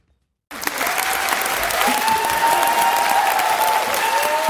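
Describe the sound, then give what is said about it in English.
A standing ovation in Parliament for an Independent MP's maiden speech: dense, steady applause that begins abruptly after a moment of silence and stays loud and unbroken throughout. “Receiving a rockstar welcome, Independent MP Di Lee finished her maiden speech to a standing ovation.”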